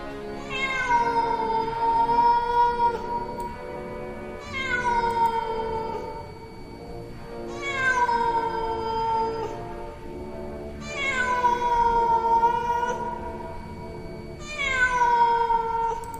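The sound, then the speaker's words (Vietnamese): A cat leaping from tall grass meows five times in long, whiny calls spaced a few seconds apart. Each call holds its pitch and then slides down at the end, moderately loud and alone. “Một con mèo từ bên trong bụi cỏ xông lên, lao thẳng đến chỗ Diệp Thiếu Dương.”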